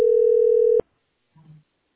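Telephone tone while calling a heating service line: a single steady, low-pitched beep lasting under a second that stops abruptly, followed by a brief faint low murmur.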